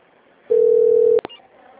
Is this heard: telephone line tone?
yes

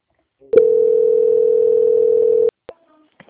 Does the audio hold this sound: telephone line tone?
yes

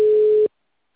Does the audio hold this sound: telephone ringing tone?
yes

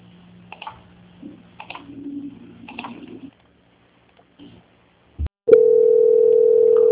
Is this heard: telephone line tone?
yes

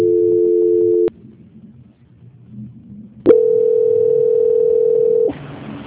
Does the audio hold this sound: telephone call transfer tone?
yes

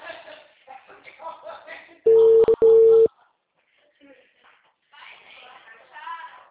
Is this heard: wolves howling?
no

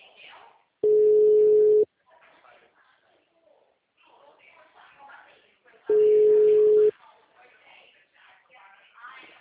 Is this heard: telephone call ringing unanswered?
yes

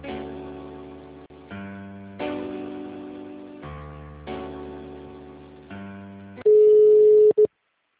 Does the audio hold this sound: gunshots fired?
no

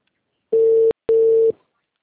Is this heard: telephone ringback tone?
yes

